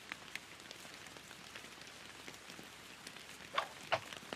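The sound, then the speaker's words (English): Rain falls as a faint, steady patter with a soft, even hiss throughout, broken by two slightly louder drops near the end. “However, the rain continues.”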